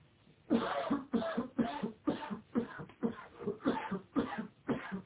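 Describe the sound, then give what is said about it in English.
Repeated coughs from one person in an English lesson, quiet and slightly muffled. Many short, harsh bursts follow one another at an even, regular pace with brief gaps between them. “I heard someone cough.”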